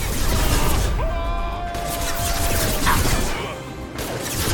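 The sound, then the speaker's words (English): In a video game firefight, gunfire is aimed at the player: a dense, continuous clatter of shots and crashing impacts, loud throughout with only a slight dip near the end. “Oh, they're shooting a lot of bullets at us.”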